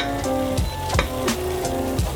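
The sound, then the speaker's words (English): Tomato product sizzles in a skillet with spices, a steady, fairly soft frying hiss broken by a few brief scraping stir strokes, with no talking. “So it got quieter in the skillet because I dropped the temperature of the skillet by adding it.”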